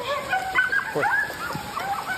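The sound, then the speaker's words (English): Coyotes howl and yip at night in Hingham, a tangle of high, wavering cries and short yelps that overlap and rise and fall over a steady hiss. “The eerie howls of coyotes tonight in Hingham.”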